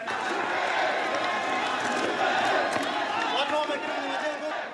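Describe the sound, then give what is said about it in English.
A crowd cheers in the streets of the capital, Mutsamudu, as soldiers move through neighborhoods. Many voices shout and call out together in a dense, sustained roar at a moderate level. “People cheered and danced in the streets as soldiers moved through neighborhoods in the capital, Mutsamudu.”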